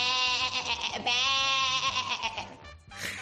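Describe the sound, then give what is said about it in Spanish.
A goat bleats in a few long, wavering, nasal cries that are loud and sustained, with a brief break before the last one. “Deberían contar, porque esa cabra es oyente fiel.”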